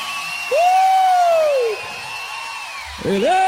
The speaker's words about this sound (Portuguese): pode aplaudir o senhor!